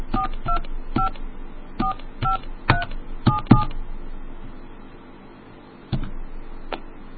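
Telephone keypad dialing tones from someone punching in a number. A quick run of short beeps is followed by a pause, then a couple more tones.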